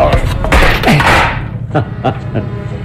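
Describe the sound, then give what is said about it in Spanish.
In a video game, a steel bar smashes a drainage pump aboard a ship's cargo hold. A loud heavy crash with grinding mechanical noise is followed by a few sharp, ringing metallic clanks. “Empuña la barreta de acero y descarga un golpe contra la bomba de desagüe. El mecanismo queda destrozado ante el impacto.”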